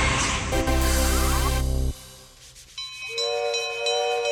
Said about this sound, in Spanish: ¡Ahí viene el tren! ¡Qué tren más lindo!